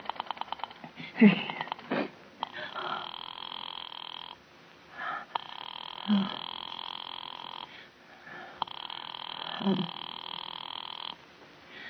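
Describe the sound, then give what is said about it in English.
A telephone being dialed direct to a number produces a faint buzzing, ring-like line tone in three long bursts separated by short gaps, each burst opening with a soft click, with no talk over it. “You may dial that number direct.”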